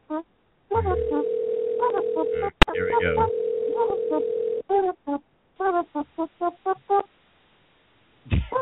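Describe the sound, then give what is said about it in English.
Telephone dial tone and dialling: a steady, loud dial tone hums for several seconds, broken once by a sharp click, followed by a quick run of many short keypad beeps, then a brief final tone. “Come on. A little dialing music, please.”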